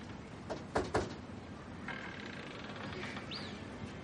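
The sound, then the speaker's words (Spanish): Knocking on a house's front door, with the screen door held open on a porch: a couple of short, dull knocks sound quietly near the start, followed by faint shuffling. “Sube unos escalones, sujeta la mosquitera y llama a la puerta de la casa.”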